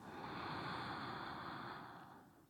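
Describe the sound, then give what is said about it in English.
Deep breath drawn in through the nose during a guided breathing meditation: one long, steady airy inhale lasting about two seconds, with no talk, easing off and fading toward the end. “full breath in through the nose.”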